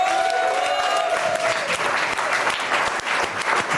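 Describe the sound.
Dense, steady applause from the live studio audience of a French radio show, many hands clapping continuously at an even loudness from start to finish.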